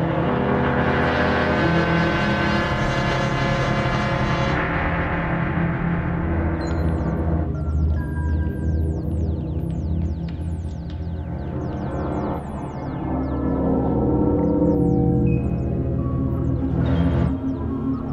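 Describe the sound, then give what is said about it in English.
Electronic science-fiction film effect for a ride in a small Krell vehicle: a dense, loud, continuous hum of layered warbling tones, with many quick upward sweeping whistles running through it. “How often the Krell technicians have ridden in this little vehicle.”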